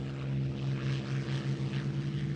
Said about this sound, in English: The sound of numerous aircraft over Koh Phang Bay.